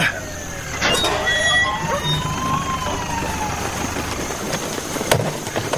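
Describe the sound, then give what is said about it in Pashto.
An arriving ambulance siren wails through repeated falling sweeps of pitch over a dense, steady rumble of engine and traffic noise, loud throughout. “د امبولانس غږ شو، لکه چې ډاکټر صاحب خالد راورسېده”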